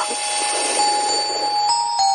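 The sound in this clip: An incoming call rings on a radio call-in line as a steady, continuous electronic ringing tone, moderately loud, with no talk over it.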